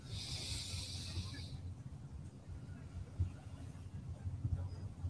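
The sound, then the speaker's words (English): A hissing breath through the nose at the start, taken during a guided presence exercise, fades into quiet, steady low background rumble for several seconds. “And see if you can move more into a nose breath.”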